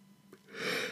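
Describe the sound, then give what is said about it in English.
A person yawns with a brief, breathy intake of air that swells sharply in loudness toward the end, soft at first and then a full, airy rush. “why do I keep yawning?”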